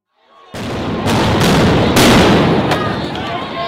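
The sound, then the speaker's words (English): Gunshots ring out as riot police remove protesters from a UN building in South Africa. A few sharp cracks punch through a loud, continuous roar of noise that starts abruptly and stays heavy to the end. “They are shooting with a gun.”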